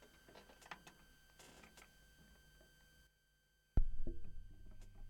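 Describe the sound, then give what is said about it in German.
A stylus set down on a vinyl record spinning at 45 rpm, on side two. A short silence comes first, then a sharp, heavy thump, followed by steady low rumbling surface noise and hum. “Wir werden da mal reinhören auf der Seite 2 auf 45 Umdrehungen pro Minute. Ich lege mal die Nadel vorsichtig hin.”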